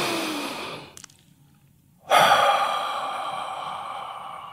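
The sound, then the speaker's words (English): A deep breath taken as a calm breathing exercise: after a short hush, a long, airy rush of breath swells up and holds steady as a soft, breathy whoosh to the end. “So, if you're ready, take a deep breath.”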